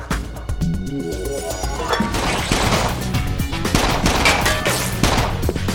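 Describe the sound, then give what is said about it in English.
Rapid gunfire during a police raid, many sharp cracks fired in quick succession over a loud, dense, continuous burst of noise that holds throughout. “Fired. Shots fired.”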